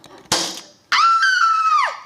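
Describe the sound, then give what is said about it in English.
A gunshot from a gun with a cocking lever and sight, fired in a comedy scene: one sudden loud burst that decays quickly, then a pause before a sustained high tonal sound that drops away at the end. “Now you're ready to shoot. Just aim. You should probably use the sight. And pull the trigger.”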